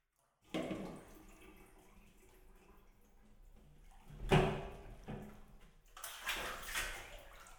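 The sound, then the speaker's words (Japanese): Hot bath water sloshing and splashing as someone lowers in, a soft continuous wash broken by a few louder surges of splashing, the strongest near the middle, and no talk. “はーい、もういいですよ。お風呂入ってください。”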